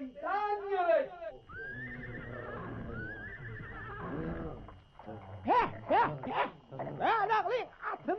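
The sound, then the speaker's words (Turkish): A horse neighs with a loud, harmonic whinny that falls in pitch, followed by people talking and more loud, broken calls near the end. “Hayqırıp kişnenlet delen oyn gerek.”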